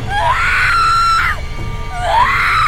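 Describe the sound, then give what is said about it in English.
A woman screams twice: a long shrill cry that climbs, holds steady and then breaks off, followed after a short pause by a second rising scream at the end. “screamed again, like she has so many times before.”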